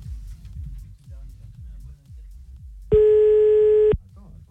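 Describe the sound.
A single steady telephone ringing tone sounds loudly for about one second at the start of a call, set against a low, rhythmic background.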